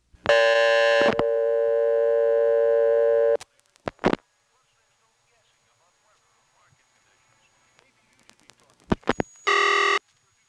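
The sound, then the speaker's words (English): A payphone reorder-style tone from a callback circuit, the test and party-line equipment, sounds as a steady, buzzy tone lasting about three seconds, followed by clicks and a near-silent gap, then a short burst of the same tone at the end. “The reorder tone you heard there is not a real reorder because it's just the tone coming from the callback circuit, a special piece of equipment used for party lines and testing.”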